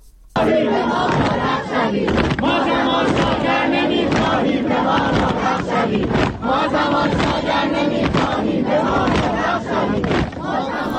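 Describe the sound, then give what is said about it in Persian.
University students at Amirkabir University chant slogans at a protest, a loud, continuous mass of voices shouting in rhythmic unison throughout. “این صدای دانشجویان دانشگاه امیرکبیر هست.”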